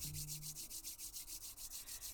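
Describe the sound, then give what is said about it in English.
Palms rubbing briskly back and forth to build heat during a yoga breathing practice: a steady run of rapid, rhythmic, soft hissing swishes, heard alone without talk. “we'll begin to rub our palms back and forth,”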